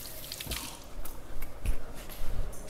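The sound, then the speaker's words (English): Running water splashes and squishes softly as hands are washed before handling a kombucha SCOBY. The faint, irregular watery sounds continue throughout with no talking. “So I'm just giving my hands a wash.”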